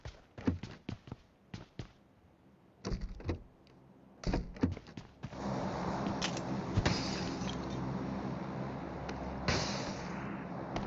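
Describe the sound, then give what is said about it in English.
Door and window sounds from the video game Free Fire. A few sharp knocks and bangs come in bursts, then a sustained rough scraping, rumbling noise is broken by occasional thumps. “Free Fire Door and Window.”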